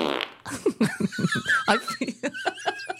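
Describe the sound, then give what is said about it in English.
A comedic fart sound effect: a rapid string of many sputtering, buzzy bursts with a wobbling, squeaky pitch, loud and alone with no talking over it. “Sat here in our pyjamas playing fart noises.”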